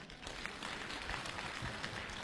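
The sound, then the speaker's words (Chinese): Faint audience applause at a crosstalk comedy act on a Spring Festival Gala program: a dense, even wash of clapping with no break. “大家，鼓掌再热烈一点好不好？”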